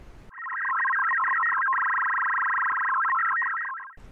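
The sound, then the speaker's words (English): A radio teletype (RTTY) tracking payload beacons on the 70cm band, sending a steady, loud warbling stream of closely spaced data tones for about three and a half seconds, with no voices. “that's the sound of our RTTY or radio teletype tracking payload beaconing away on the 70cm band.”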